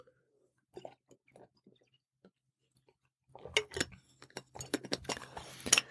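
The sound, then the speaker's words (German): Someone takes a sip of a drink. A few faint, scattered mouth clicks come first, then a denser burst of small clicks and clinks as the cup is handled and the drink is swallowed. “Ich muss nochmal einen Schluck trinken.”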